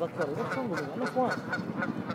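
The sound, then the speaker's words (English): Canada geese honking, with a quick run of harsh, nasal honks that rise and fall in pitch and come in a loose, uneven rhythm. “that's a goose making that noise. They're the Canada geese. They're very noisy.”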